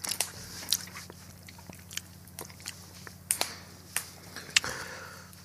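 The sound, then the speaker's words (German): Crunchy bites of spiced speculoos biscuits: many faint, crisp crackles and snaps in an irregular rhythm over a low steady hum. “Sorry für das Knuspern, das sind die Spekulatien.”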